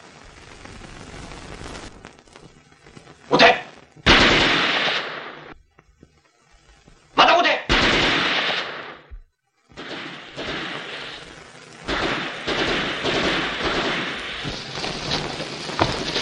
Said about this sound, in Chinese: 出来我就开枪了。